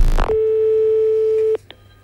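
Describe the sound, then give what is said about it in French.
A telephone ringing tone sounds while a call is being placed: one steady, mid-pitched tone holds for a little over a second, then stops and is followed by a couple of short clicks or blips. “Alors, je vous rappelle, chers auditeurs, que nous appelons deux personnes. Actuellement, nous sommes en train d'appeler Monsieur Villadard, Jean, ainsi que Monsieur Villosset, Célestin”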